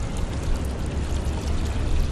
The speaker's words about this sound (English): I'm pouring the water that I've collected from that bucket off the pier here